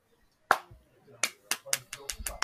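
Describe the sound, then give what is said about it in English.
Slow hand clapping: one sharp clap, a pause, then a steady run of several more crisp claps at a quicker, even pace. “Slow clap. Literally. Or fast clap.”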